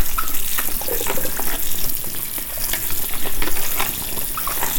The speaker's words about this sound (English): I have small tomatoes I'm going to wash and then put it in my bowl as well.